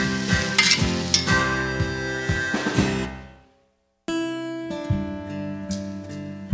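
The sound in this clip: Mushrooms sizzle and fry in a skillet with steady crackling and clinks of stirring. The sound cuts out briefly to near silence, then the frying resumes just as loud.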